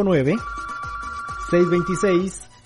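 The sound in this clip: A telephone rings with a steady high tone and warbling, pulsing bursts over a little over two seconds.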